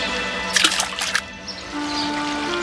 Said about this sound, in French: Il se mit à rire et les poussa dans la rivière.